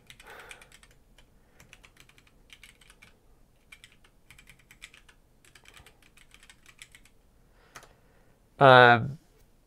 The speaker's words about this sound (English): So it's, I'll just type it in. So let me show you how I type.